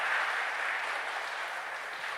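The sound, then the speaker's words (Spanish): An audience applauds a man and his young son, a brief burst of dense, even clapping that stays steady and then eases a little toward the end. “Aplaudan a hermano Junior”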